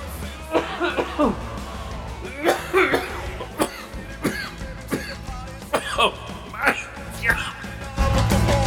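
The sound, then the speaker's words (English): A person coughing repeatedly, with many harsh, loud coughs in irregular bursts and short pauses between them. “that's making me whoo! Making me cough.”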